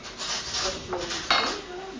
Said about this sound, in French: elle va retourner chercher une autre assiette